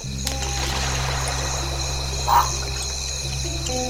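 European tree frogs calling in a dense, continuous chorus, a steady layered buzz of croaks holding at an even level throughout, with one brief louder burst partway through.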